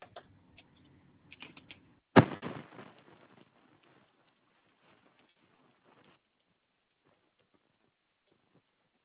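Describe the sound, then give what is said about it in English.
Typing notes on a computer keyboard: a few scattered taps, then a louder cluster of quick keystrokes that thins into sparse faint clicks and near silence. “Let me get my notes typed for you.”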